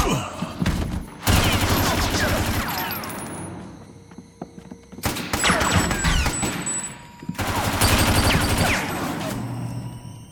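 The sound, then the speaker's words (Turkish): Machine gun fire in several long, loud bursts of rapid, crackling shots, separated by brief lulls. The dense, sustained volleys dominate throughout. “Duyduğum makineli tüfek sesi mi”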